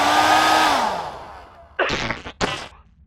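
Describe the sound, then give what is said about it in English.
A compressed air duster sprays a long, loud, steady hiss that fades out over about a second and a half, followed by two short breathy bursts. “To hell with it, I am immortal after all, what's a little compressed air duster going to do to the old processors anyhow?”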